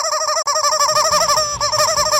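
Rapid high-pitched peeping from a chicken, many short chirps running together in a steady, unbroken stream with only a brief pause early on.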